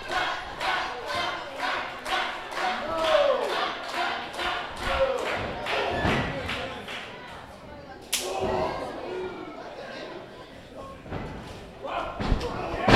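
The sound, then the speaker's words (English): Heavy thud of a wrestling clothesline amid many sharp slams and impacts, with one especially loud hit midway. People talk throughout over the repeated thumps. “Ooh, that was a heavy clothesline.”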